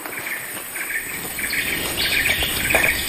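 Various birds call in a tropical rainforest. Bright chirps and twitters repeat over a steady buzz of insects, with no talking.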